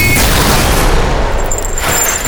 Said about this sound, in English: The projectile for my gun passed through Carol's desk and into the bot, destroying them both.